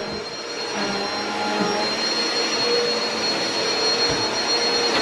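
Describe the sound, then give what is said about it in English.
A vacuum cleaner runs on a staircase with a steady, loud, hissing drone that holds an even level throughout, with no voices. “Somebody's vacuuming the stairs.”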